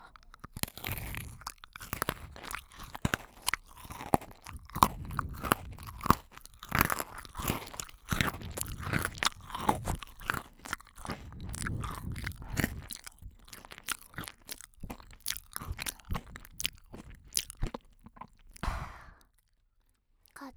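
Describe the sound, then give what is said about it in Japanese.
Crunching of Pocky chocolate biscuit sticks: many sharp, crisp bites and chewing crunches follow each other in an irregular run, fairly loud and without talk, before the sound stops briefly at the end. “私もお兄さんの大好きなポッキーチョコレートだよ。いっぱいあるから、余ったらポッキーゲームでもする？”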